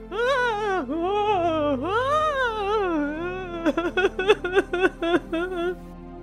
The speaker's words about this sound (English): The sound was as though it was coming from several women, all who were weeping, wailing and worrying.